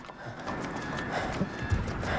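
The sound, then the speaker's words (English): Hooves of a white horse clop along a road as it pulls an empty carriage on a city street, a faint, steady run of light hoofbeats over a low background hum. “watches a white horse pulling an empty carriage along the road.”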